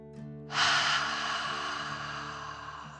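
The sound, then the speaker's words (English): A deep, slow breath taken during a relaxation exercise: a long airy rush that starts abruptly and holds steady over a soft sustained musical tone. “Take another deep dragon breath in and out.”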